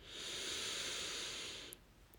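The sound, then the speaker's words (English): A long, deep breath is drawn in as a steady, airy hiss lasting just under two seconds, then stops abruptly as it is held, leaving near silence. “Before you do, I want you to take in with me a long breath. So here we go.”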